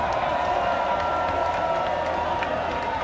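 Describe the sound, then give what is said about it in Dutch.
A crowd applauds and cheers at a student opening party for an introduction week: a dense, continuous wash of clapping and shouting voices at a constant, fairly loud level throughout. “Dames en heren, mag ik een applaus voor het OW-bestuur 2023?”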